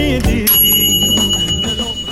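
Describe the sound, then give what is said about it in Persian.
A gas stove's timer bell rings out in the kitchen, a bright sustained metallic tone that starts just after the opening and keeps sounding over a steady low background. “بله، صدای زنگ گاز بلند شد.”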